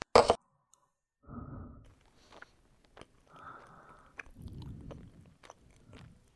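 Chewing while eating tomato and egg stir-fry, opening with one brief sharp knock, then several soft, moist bursts of biting and mastication separated by short pauses, fairly quiet and alone.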